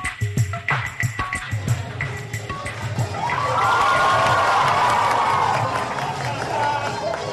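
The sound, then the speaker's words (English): Students cheering as President Obama and Michelle Obama dance with them in Mumbai: rhythmic thumping beats at first, then a swell of excited crowd cheering and shouting that rises and holds loud to the end. “the sound there of the President, President Obama, and First Lady Michelle Obama dancing with students in Mumbai in the last few days during the President's big visit to India.”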